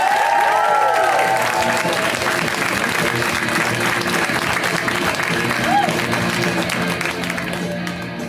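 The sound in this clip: A comedy show audience applauds and cheers for a comic with a steady wash of clapping that barely lets up, a voice briefly audible over it at the start before it slowly eases.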